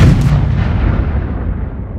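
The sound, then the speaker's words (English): A bomb explosion sound effect: a single loud, booming blast with a dense low rumble that trails off over about two seconds. “Let's drop some bombs.”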